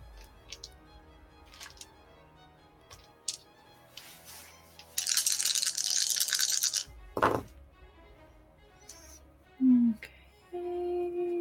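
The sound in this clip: Dice rattle and roll for damage during a live Dragonlance tabletop role-playing session, a dense clattering burst lasting about two seconds among scattered clicks and brief voices.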